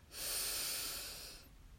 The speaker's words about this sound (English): Let's take one big deep breath and exhale with a loud sigh. Breathing in